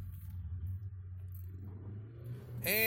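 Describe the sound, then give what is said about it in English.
A car plowing through snow: a steady low engine rumble with soft clatter, then the engine revs up sharply near the end. “I hope I didn't just get stuck. I may have. Looks like we're going to have to plow through this snow here.”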